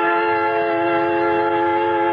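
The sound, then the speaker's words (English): A train at a railway station gives a loud, steady drone of stacked tones like a sustained whistle or horn, unbroken and unchanging for the whole clip. “At the West Station, I board a creaking train and wait and wait.”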